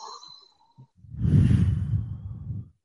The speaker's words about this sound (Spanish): Entonces vamos a levantar las manos y vamos a inhalar. Y exhalamos.